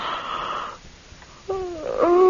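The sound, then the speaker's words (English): Drawn-out voiced yawns from a sleepy person late in the evening at home: a long moaning tone, a short quiet gap, then a second wavering, tonal yawn that swells louder toward the end. “I can't stop yawning.”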